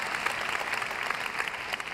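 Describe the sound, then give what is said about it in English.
A church audience claps their hands in applause, a steady, even patter of many hands at moderate volume for about two seconds. “Go ahead, clap your hands we are so blessed.”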